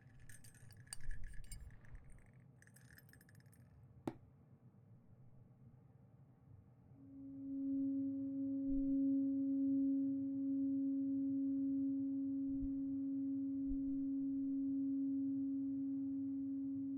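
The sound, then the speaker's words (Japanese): A bell being rung, swelling into a long steady low hum with a fainter higher overtone that sustains to the end, preceded by a few faint small clinks and a sharp tap. “もう一方の鐘も鳴らして、”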